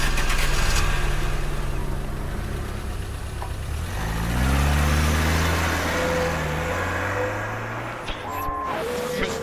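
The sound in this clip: Getaway car engine rumbling low and steady, then revving as the car pulls away, its pitch climbing and holding in a strong drone before easing off.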